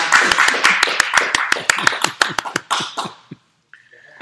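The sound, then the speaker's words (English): Clapping at the close of a reader's theater performance: brisk, crisp hand claps in a steady rhythm that loosen and thin out, then stop abruptly after about three seconds, leaving near silence with a faint trailing sound. “Let's give an applause for our”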